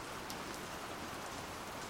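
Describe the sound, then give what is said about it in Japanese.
Rain falling steadily in an ongoing downpour: a continuous, even, faint hiss of drops with no breaks, heard alone. “雨が降り続いている。”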